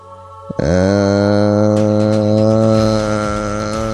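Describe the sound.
A human voice imitates a machine that follows brain waves, producing a loud, steady buzzing drone with a rich low hum after a short click and holding it unbroken for more than three seconds.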